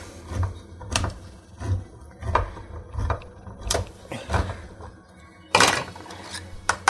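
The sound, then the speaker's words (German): A can of pineapple being opened and poured makes a steady run of metallic clicks and clanks at an even pace, then a louder, rattling burst near the end, with no talk. “die Dose Ananas aufmachen. Ich schütte das Ganze dann”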